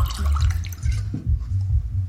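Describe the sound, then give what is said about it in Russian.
A drink is poured into a glass, making brief gurgling splashes of liquid in a few short bursts, with no talk. “Снова наливает в бокал, выпивает.”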